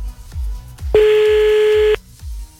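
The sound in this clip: Telephone tone as a call is placed: one loud, steady electronic beep lasting about a second, set between low rhythmic thumps.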